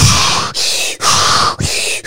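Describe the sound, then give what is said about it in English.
A person demonstrating hyperventilation: about four quick, loud, rasping breaths in a steady, rapid rhythm with brief dips between them. “we're like hyperventilating, we're breathing like this,”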